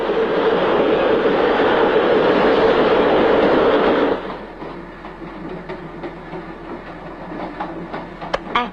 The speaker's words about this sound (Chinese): 你说这火车要去澳洲的话该多好啊！